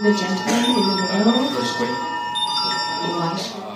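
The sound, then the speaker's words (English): An emergency missile alert sounds on mobile phones at a press briefing at Taiwan's foreign ministry as a rocket carrying a satellite passes over. The high, steady alert tones ring under people talking. “What you're hearing is an emergency missile alert going out to everyone's phone in Taiwan, including mine and including that of the foreign ministers,”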